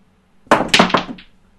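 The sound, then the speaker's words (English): Hard clacks of snooker balls as a single shot pots two reds, a quick cluster of a few sharp knocks that grow softer toward the end. “He's potted two reds with one shot.”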